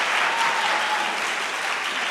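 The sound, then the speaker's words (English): Audience applause at a debate: a dense, steady wash of clapping that holds at an even level from start to finish. “He's wisely letting the applause die down before he speaks.”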